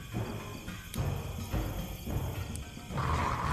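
A wolf roaring in a tabletop fantasy role-playing game, a loud, rough, sustained growl-roar holding a steady level for about three and a half seconds with no talk over it.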